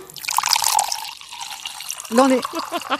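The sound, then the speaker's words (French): White wine poured into a glass: a short, bright liquid trickle and splash lasting about a second, followed by a person talking. “ce que vous entendez, c'est un son qui est réel. On vient de se faire couler un petit verre de blanc, un petit rouge.”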